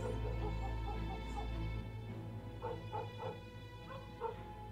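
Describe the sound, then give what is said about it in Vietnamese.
Dogs barking at night in a village: a series of short, high yips and whimpering barks over a steady low drone. “Đâu đó chỉ còn có tiếng chó cắn ma nhấm nha nhấm nhẳng vang lên.”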